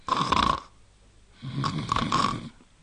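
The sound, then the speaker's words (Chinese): A voice imitates snoring, as a child would while standing up pretending to sleep: two drawn-out, raspy snore-like bursts with a pause between them, heard alone without talk. “要不说怎么叫小孩呢？一边站着跟着一边打呼噜。”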